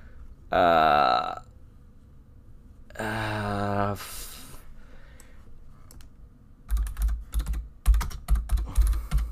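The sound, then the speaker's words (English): Typing on a computer keyboard gives a rapid burst of sharp key clicks in the last few seconds, after two short voiced vocal sounds and a quieter stretch earlier on. “you're hearing typing because I am”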